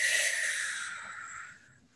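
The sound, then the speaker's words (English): A long, deep, airy inhale during a guided breathing exercise for energy work. It is loudest at the start and fades steadily to near silence as the breath is held. “I'm going to take a deep inhale for me and hold the breath.”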